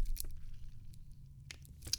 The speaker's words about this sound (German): Capri Sun, ich, ich tue es zur Feier des Tages auf, gebe ASMR und nehme einen Schluck